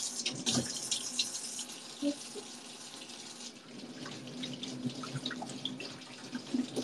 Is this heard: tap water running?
yes